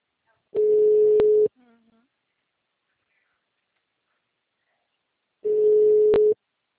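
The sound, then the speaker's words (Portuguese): A telephone line sounds while a call is being placed: two steady mid-pitched tones, each lasting about a second, separated by several seconds of silence. “a gente tá ligando.”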